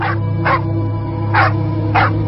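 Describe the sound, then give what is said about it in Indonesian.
Dog barking aggressively, four short sharp barks spaced irregularly over a low steady drone. “malah menggonggong, menggeram galak kepadaku.”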